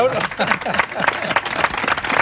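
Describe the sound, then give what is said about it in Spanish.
Audience applause at an event in Almagro: uneven bursts of hand claps rise and fall throughout while people talk over them. “Vamos a dar un aplauso, ¿no? Vamos a dar un aplauso.”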